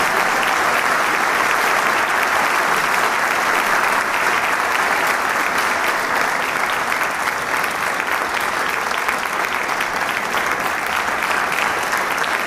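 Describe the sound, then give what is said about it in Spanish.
Audience applause at a chamber orchestra concert in the Teatro Isauro Martínez as the conductor returns for a bow. The clapping is loud, dense and sustained, keeping an even level throughout without a break. “a recibir el aplauso del público en este maravilloso Teatro Isauro Martínez.”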